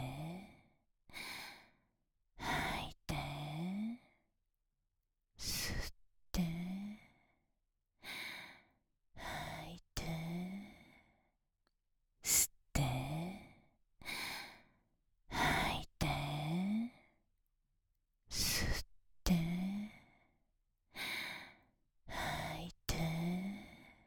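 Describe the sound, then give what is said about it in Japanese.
Slow, deliberate breathing in and out, as in a guided breathing exercise, with many paired breaths separated by short silences; several exhales come out as audible voiced sighs. “吐いて吸って吐いて吸って”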